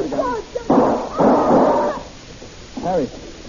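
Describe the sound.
Gunshots ring out in a radio drama, two abrupt noisy blasts with lingering tails, set between stretches of people talking.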